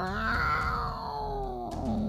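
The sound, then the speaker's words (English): A voice imitates the roar of a mother snow cat in a told story, one long, loud, throaty growl that slides steadily lower in pitch. “And the snow cat went,”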